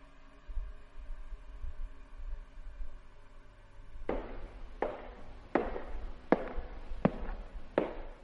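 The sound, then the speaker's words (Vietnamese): Slow footsteps in wooden clogs approach as six hard, hollow clacks spaced evenly apart, following a few seconds of low hum. “Ở bên ngoài có tiếng ai đó đi guốc mộc, chậm rãi tiến lại gần.”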